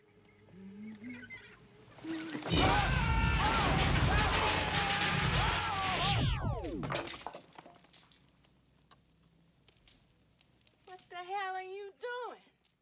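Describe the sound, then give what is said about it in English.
The Ghostbusters proton pack powering down: a loud, dense crackling blast lasting a few seconds that ends in falling sweeps and fades out, with people talking before and after. “And then I think probably my winner is the powering down noise after they stop shooting the cleaning lady.”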